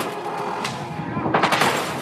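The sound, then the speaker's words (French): Gunfire aimed at police in a tense chase scene, a few loud, harsh bursts cracking over a dense, noisy background. “Tirez une balle sur les flics !”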